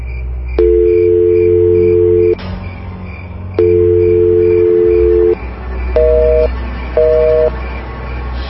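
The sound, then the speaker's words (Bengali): Electronic telephone-line tones from a call that fails to connect because the other phone is switched off: two long, steady low beeps, then two shorter, higher-pitched beeps, loud and with no voice. “কি phone বন্ধ বলছে কেন?”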